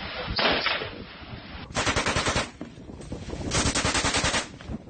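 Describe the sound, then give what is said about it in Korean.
M60 machine gun firing at Chinese fishing boats at sea, in three loud bursts of rapid, rattling shots separated by short pauses. “결국 공용확인 M60 기관총이 불을 뿜습니다. 90여 발을 쏘고 나서야 중국 어선 30여 척은 서해 공해상으로 도주했습니다.”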